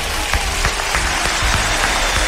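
Applause at a radio station's anniversary celebration: dense, loud clapping from many hands, steady and continuous throughout with no pauses.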